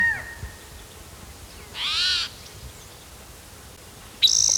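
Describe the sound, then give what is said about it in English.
A different male bird calls: a harsh, buzzy call of about half a second in an otherwise quiet recording, then a brighter, sharper call starts near the end. No one speaks. “Bird that's calling, I think it's a different male.”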